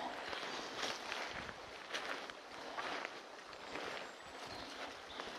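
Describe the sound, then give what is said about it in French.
Footsteps of a hiker crossing a slope sideways, off-trail in mossy woodland: soft, irregular crunching steps over a constant rustling texture, fairly quiet and with no voices. “je marche en travers en mode dahu.”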